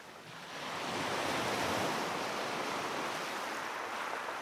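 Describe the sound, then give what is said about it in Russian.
Surf breaks on a shore as a broad, steady hiss of rushing water. It swells in over the first half second, then stays even and fairly faint, with no voices. “Шум прибоя почти заглушал звуки радиоприемника.”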